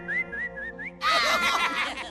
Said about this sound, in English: why don't you just whistle and see if it comes to you?